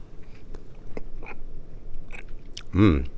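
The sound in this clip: Eating malted vanilla and chocolate ice cream blended into a frozen milkshake: a few faint, soft clicks and mouth sounds, then one louder, fuller bite near the end.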